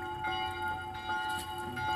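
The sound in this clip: Church bells ring with heavy reverb, their sustained tones hanging steadily and overlapping throughout at a moderate level, with no talk.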